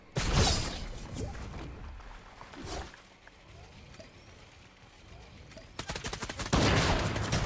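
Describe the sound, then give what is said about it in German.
Video game gunfire shoots through a wall: a few sharp bursts early on, then quieter stretches, ending in dense, loud, rapid shooting. “Die schießen durch die Wall!”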